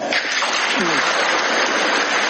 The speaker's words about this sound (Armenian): Ղազախստանի նախագահի այս մի հայտարարությանը պատգամավորներն արձագանքել քեցին միահամուր ծափահարություններով։